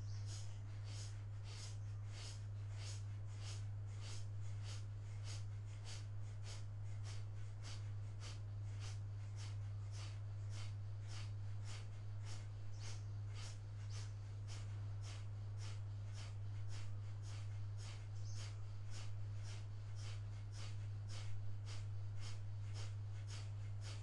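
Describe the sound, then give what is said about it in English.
Rapid abdominal breathing pumps, many short, sharp, faint breaths in a fast, even rhythm, repeating steadily over a low constant hum. “We'll begin at the top of the next inhale. 60 abdominal pumps.”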